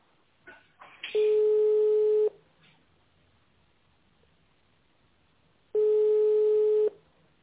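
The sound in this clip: A telephone busy signal sounds while a call is redialed: a few soft clicks at the start, then two long, steady, evenly pitched tones about a second each, separated by several seconds of near silence.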